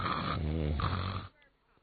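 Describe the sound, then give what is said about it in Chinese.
A voice imitates a sleeping soldier's snoring: one drawn-out, rasping, throaty snore lasting over a second, fairly loud, followed by near silence. “这边躺下呼噜呼噜的打起呼噜来了”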